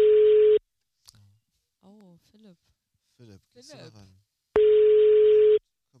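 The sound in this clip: An outgoing telephone call tone gives two loud, steady mid-pitched beeps, one at the start and another about four seconds later. A voice speaks briefly in the quiet gap between them.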